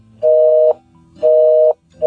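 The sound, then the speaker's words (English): Telephone busy signal: a steady mid-pitched tone pulses on and off in even half-second bursts, with two full beeps and a third starting at the end. “I think they took their phones off the hook, because I don't understand how they could be busy.”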